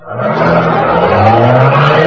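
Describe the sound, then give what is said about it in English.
A getaway car's engine roars loudly and without a break as it speeds off, tire squeal and a rushing motor blending into one dense, sustained blast of noise. “Get this car going.”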